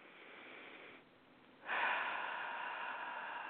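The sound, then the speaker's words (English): A deep breath taken at the close of a guided prayer session: a soft, airy rush that dips briefly, then swells into a louder, steady breathy hiss that holds to the end. “Take a deep breath.”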